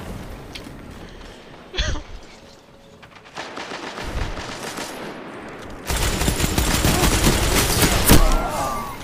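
Machine gun fire in a video game: bursts of rapid shots over a dense, noisy backdrop, growing louder and busier in the second half, with a few sharper single blasts standing out.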